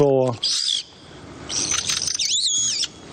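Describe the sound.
A pet parrot calls in shrill, whistling bursts. Several high, squeaky calls with warbling, bending pitch are separated by short pauses, fairly loud and with no talk over them.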